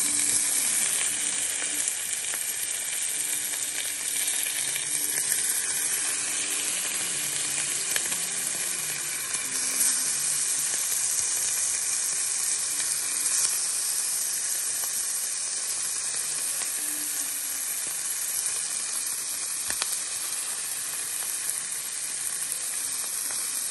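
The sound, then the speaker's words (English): Bacon sizzles and fries in a pan with fat, a steady, dense crackling hiss that holds at an even loudness throughout, with no voices. “still don't want the bacon to burn and stick to the bottom of the pan. Yeah. So, there we go. Then, we're gonna add our bacon.”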